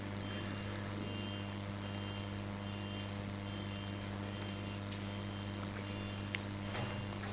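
Faint, evenly spaced beeps from a vehicle outside repeat steadily over a constant low hum, with each short tone sitting high and thin above the background.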